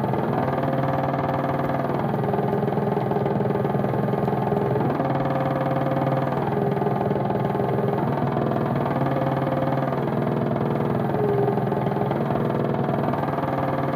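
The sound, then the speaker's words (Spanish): An intonarumori noise instrument built to emulate a motor engine by stringing together ten notes produces a loud, continuous mechanical drone, its buzzing tones shifting in repeated stepped patterns like an idling engine. “Su primer artilugio ha sido el explosionatore, un dispositivo que emula el sonido de un motor por medio de la consecución de 10 notas completas.”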